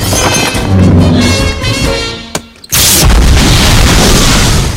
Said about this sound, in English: Then she puts a mattress over the wall, tips up the dining table, and hides behind it. Finally, she presses the detonator.